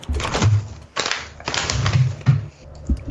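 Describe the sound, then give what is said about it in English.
Scissors snip and crinkle through a package of crème brûlée popcorn, several sharp, irregular cutting and crackling bursts separated by short pauses, loud and alone. “Scissors.”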